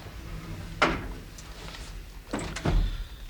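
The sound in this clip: A door being opened, heard as a few quiet clunks and rattles spread over a few seconds, with the loudest knocks near the end and faint background hiss between them.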